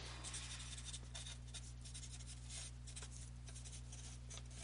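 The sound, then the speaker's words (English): Pen or pencil scratching as someone writes notes, a faint run of short scraping strokes over a steady low hum. “Just writing some things down, that's all.”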